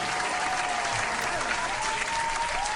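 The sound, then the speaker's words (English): Applause from a live studio audience: a dense, even wash of clapping that holds at a moderate, steady level throughout. “Thanks, live studio audience. That was dope.”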